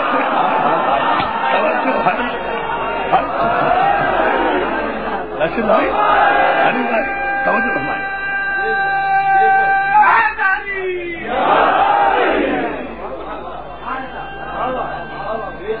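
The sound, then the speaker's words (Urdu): A crowd at a gathering chants a religious slogan in unison, loud and continuous, with many overlapping voices holding long sustained tones. “بڑا دور سے مشرقی پاکستان سے نعرہ آیا ہے اور مغربی پاکستان والوں نے جواب نہیں دیا، جواب دو”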